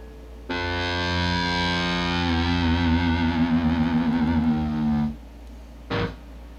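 Electric guitar played through effects and distortion rings out in one long, loud sustained tone that develops a wavering, warbling quality midway, cuts off, then returns as a short burst after a brief gap.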